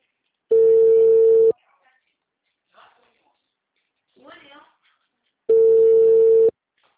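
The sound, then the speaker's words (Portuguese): Ringback tone of an outgoing telephone call: two long, steady, mid-pitched beeps of about a second each, separated by a long pause that holds a few faint, brief voice sounds. “Peraí que eu tô fazendo uma ligação.”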